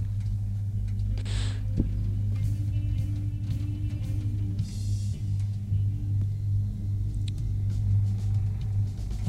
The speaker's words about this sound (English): We're going down in the elevator.